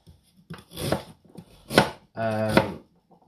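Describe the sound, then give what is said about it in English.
A knife finely slices ginger for a curry, producing a few short bursts of crisp chopping on a board with brief pauses between them. “Right, so what you want to do with this ginger is you want to finely slice it.”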